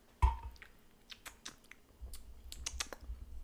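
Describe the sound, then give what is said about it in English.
Chewing and eating sounds from a mukbang: a sharp crunchy bite at the start, then a few moist clicks and smacking mouth noises spaced irregularly, fairly faint, with no talk heard. “I know the headphone users are gonna hate us because we're like talking and eating. But that's what a mukbang is.”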